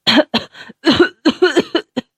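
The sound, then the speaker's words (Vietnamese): Violent coughing from a man collapsing to the ground after being released from a chokehold: a rapid string of harsh, strained, throaty bursts, some with a rasping voiced tone, coming in uneven clusters. “Người kia mềm oặt ngã xuống đất, ho sù sụ không ngớt”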